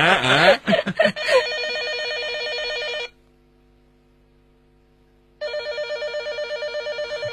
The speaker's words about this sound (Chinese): 电话， 我接。